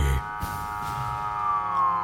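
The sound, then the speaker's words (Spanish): Police patrol car siren on arrival, a sustained wailing tone that holds steady and dips slightly toward the end, over a steady background hum. “llega una patrulla a la Patrona FM”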